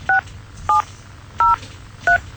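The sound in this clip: Four short dual-tone keypad beeps as a telephone number is dialed again, evenly spaced and fairly loud over a low steady background hum.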